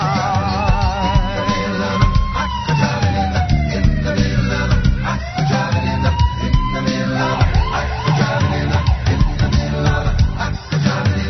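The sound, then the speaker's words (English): An emergency vehicle siren wails in repeated rising and falling sweeps, loud and continuous, over a busy, dense layer of other sound. “Got my siren and my light, and I'm ready to roll.”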